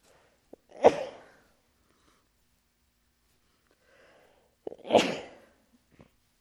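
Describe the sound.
Two loud, explosive sneezes several seconds apart, each preceded by a short, sharp intake of breath, with quiet between them.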